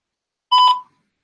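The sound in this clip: A single voicemail beep sounds once, a short, steady, fairly high electronic tone lasting about a third of a second, alone against silence.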